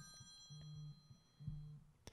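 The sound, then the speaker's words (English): Mobile phone ringing during a lecture: two faint, steady tonal bursts, each lasting under half a second, separated by a short gap. “That was my phone ringing because I forgot to turn off my phone.”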